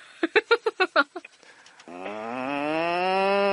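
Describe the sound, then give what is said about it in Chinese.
A man imitates a cow mooing with a long, low, droning voiced tone that slowly rises slightly and holds. A rapid series of short, punchy bursts comes before it. “这是刘德华学牛叫。”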